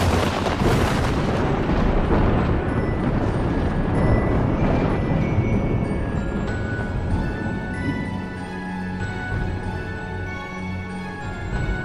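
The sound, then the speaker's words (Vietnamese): A lightning strike with thunder: a loud, broad crash at the start followed by a long, heavy rolling rumble that slowly fades over about twelve seconds. “Luồng sét đánh đùng đùng, ghê rợn đến chói lòa cả mắt.”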